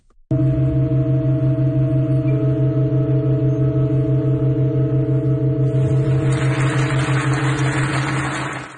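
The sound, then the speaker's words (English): A pipe organ in Halberstadt, Germany, changing chords from seven notes to eight in an extremely slow performance. Several steady, unwavering tones hold loudly throughout, and an airy, hissing layer joins partway through. “Yesterday, the organ performed a rare chord change and went from playing 7 notes to 8.”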